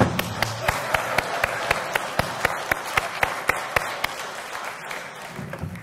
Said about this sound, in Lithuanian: Plojimai atsistojus.